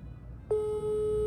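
A telephone busy tone after a dropped call: half a second of low background noise, then a steady single tone that sounds without a break to the end, with only a slight dip in loudness partway through.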